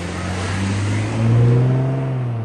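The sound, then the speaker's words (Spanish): A car engine runs with a steady, low, droning hum and a rich layered tone, swelling briefly louder in the middle before settling back to an even level. “Si uno escucha, por ejemplo, el sonido de un motor de un auto,”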